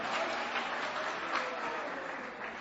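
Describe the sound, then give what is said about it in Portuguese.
A church audience claps continuously at a service, a steady, fairly faint patter of many hands without clear breaks. “mais forte as palmas para Jesus, irmão, mais forte as palmas para Jesus”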